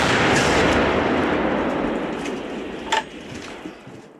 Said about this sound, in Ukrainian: А артилерія – це ж боги війни. Стріл!